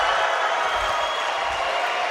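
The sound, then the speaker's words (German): Recorded crowd applause and cheering after a presidential candidacy announcement speech, forming a dense, even wash of clapping that holds steady without a break. “Also, bisschen Applaus haben wir da noch auf dem Band”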